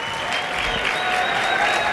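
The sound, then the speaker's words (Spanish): Audience applause for a string quartet, a steady dense wash of many hands clapping that holds at an even, fairly loud level throughout. “Un aplauso para ellos. Para ellas.”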